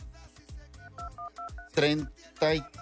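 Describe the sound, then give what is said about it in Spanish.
A telephone keypad is dialed during a live on-air game segment: several short, evenly spaced beeps in quick succession, with voices sounding around them. “Ok, déjame marcar.”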